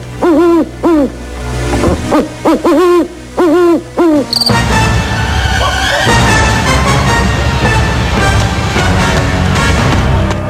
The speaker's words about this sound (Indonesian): Namun pohon itu langsung berdiri lagi dan ada suara burung hantu.